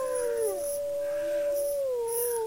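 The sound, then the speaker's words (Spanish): Wolves howling in long, sustained, overlapping tones: a steady mid-pitched howl runs through the whole clip while other voices glide and fall beside it, with no talking. “Y con este sonido maravilloso de los lobos aullando,”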